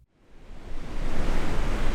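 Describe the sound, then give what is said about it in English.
Ocean waves on a Southern California beach: a broad, hissing surf roar swells up from near silence and settles into a steady, loud wash, with no voices. “It's a picture-perfect afternoon in Southern California. The sun is beating down on a volleyball game in the sand and a surfer paddling out into the waves.”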